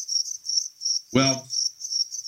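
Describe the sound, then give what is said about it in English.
Crickets chirp in a steady, high, pulsing trill that runs through the whole stretch, with one brief low rustling burst partway through. “And nothing. Just crickets.”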